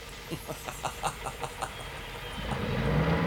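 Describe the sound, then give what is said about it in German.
A heavy car engine starts up and reverses: about eight quick, even cranking pulses, then a low engine drone that swells steadily louder, all fairly faint. “Er ließ den schweren Motor wieder an und reversierte bis an die große Chaussee”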